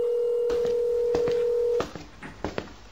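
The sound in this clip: A telephone number is being dialed: a steady tone plays, then breaks off, and several short key presses follow at an uneven pace.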